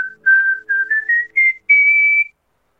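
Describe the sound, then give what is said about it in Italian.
Classic human whistling: a clear, loud, pure-toned melody of several short notes ending on one longer held note, stepping gradually upward in pitch, with no voices. “Dunque, questo è il fischio classico”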